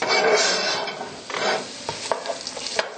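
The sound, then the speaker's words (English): A whole onion sizzles as it fries in a pan, giving a steady hiss, with a few short scraping stirring sounds toward the end. “So we can put in our whole onion. The longer that onion cooks, really the sweeter it gets”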